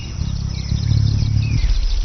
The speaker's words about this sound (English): Hummingbirds can fly forwards, up and down, and backwards, and all with unbelievable precision.